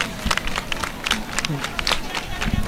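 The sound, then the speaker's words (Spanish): A crowd claps hands in quick, rhythmic palmas at the Virgen del Rocío procession in Villamanrique. Sharp, repeated claps run through the whole clip beneath continuous talk. “y escuchamos esas palmas.”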